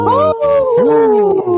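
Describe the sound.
A person imitates a wolf howl with a loud, sustained voiced wail in a few connected phrases. The pitch glides upward, then slowly sinks, with brief breaks between the phrases.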